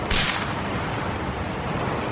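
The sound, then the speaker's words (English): A single sharp gunshot, fired at people during a confrontation, cracks out right at the start and then gives way to a steady, noisy background with no further shots. “Stop! What are you doing? Get out of here! Ah! Stop! Stop shooting!”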